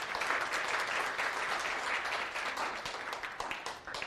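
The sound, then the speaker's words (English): Audience applause congratulating an author on a book-of-the-year award: dense, steady clapping from many hands that holds at an even level throughout, with no voices. “So let's give her a hand. Congratulations.”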